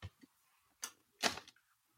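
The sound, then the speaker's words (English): Crisp bites into a salted nut roll thin snack bar with a peanut butter base, roasted peanuts, crisp marshmallow bits and caramel: a few short, faint crunches in near silence, the last one longest and loudest. “I'm going to try the salted nut roll thins. Creamy peanut butter base blended with roasted peanuts, crisp marshmallow bits, and caramel. I'm taking a bite now.”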